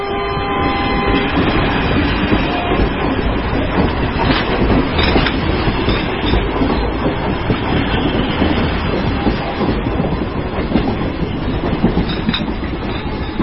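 Loud, steady rumble and rattle of a train running on rails, with a rhythmic clickety-clack of wheels continuing throughout, without pause.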